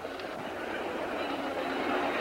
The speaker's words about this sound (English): strides along a railway platform, looking into the windows of a passenger car.